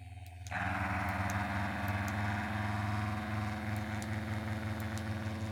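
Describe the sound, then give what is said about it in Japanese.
A steady motor buzz from an Aotara vibrating toy switched on for a sound check begins after a brief quiet moment. It holds as a constant low hum with rich overtones and a faint tick now and then. “青たらちゃん、はい、音確認しとく。”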